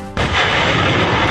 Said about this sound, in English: That is the sound of U.S. Marines practicing firing a mobile rocket system days ago near the foothills of Mount Fuji in Japan.